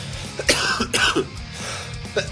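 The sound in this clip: A few harsh, explosive coughs in short separate bursts, the loudest near the middle and another at the end, over a low steady background murmur.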